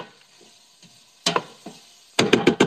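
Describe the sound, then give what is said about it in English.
Meat frying in a pan, with faint crackles early on, then louder bursts of sizzling and sharp spitting pops that grow quicker and denser toward the end. “do you hear that? Do you hear the sizzling?”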